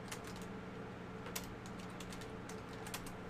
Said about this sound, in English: I did lots of typing just now